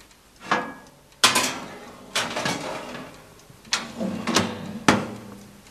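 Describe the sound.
Clattering knocks of an oven door and tray as fresh, still-moist saffron pistils go back into the oven to dry; several sharp, fairly loud bangs and rattles spaced irregularly, each trailing off quickly.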